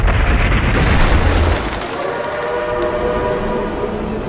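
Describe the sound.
A train arriving at Pingxingguan station gives a loud, broad roar with heavy low rumble. The rumble eases after the first second and a half into a steady rushing hiss, with faint tonal lines running underneath.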